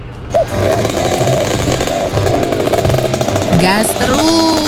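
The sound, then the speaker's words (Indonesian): A rare old motor vehicle's engine revs with a steady, buzzing roar. Voices talk over it, especially toward the end. “Gas terus. Lo. Ini lo kendaraan langka yang harus dilindungi keberadaannya.”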